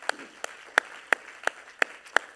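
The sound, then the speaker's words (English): Congregation clapping hands in praise at the close of an evening church service: seven sharp, evenly spaced claps in a steady rhythm, each crisp and distinct over quiet background. “In Jesus' name, let's clap our hands and a little bit of praise before we leave tonight.”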